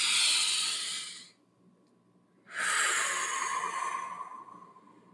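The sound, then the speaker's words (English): A single deep breath: a loud, airy inhale, a short silent pause, then a long, breathy exhale that slowly tapers off, with no talk. “I'm going to take a deep breath because my voice is not doing what I wanted to.”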